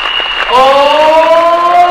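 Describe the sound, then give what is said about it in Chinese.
An audience at a product presentation seminar applauds the mothers present. Loud clapping bursts in after a brief quiet start, with a sustained voice ringing over the dense applause. “所以好不好？给我们在场所有的妈妈们一个热烈的掌声鼓励一下。”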